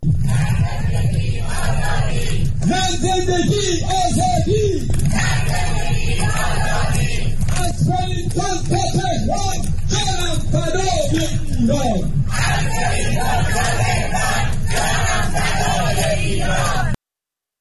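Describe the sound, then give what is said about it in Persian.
A crowd of Iranians joined hand in hand in a long human chain in rainy Wellington chants loudly in unison, their voices rising and falling in repeated rhythmic phrases without a break. “تعداد قابل توجهی از ایرانیان ساکن ولینگتون، پایتخت نیوزیلند، با وجود هوای بارانی دست در دست هم در صفی طولانی فریاد زدند:”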